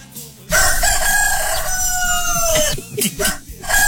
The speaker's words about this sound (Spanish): El canto del gallo. El canto del gallo.